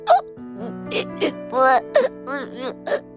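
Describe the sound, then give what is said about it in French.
A voice imitates a toy crying: a series of high, wavering whimpers and sobbing sounds, rising and falling in pitch in short bursts, heard alone. “En effet, ils entendaient le nouveau jouet pleurer.”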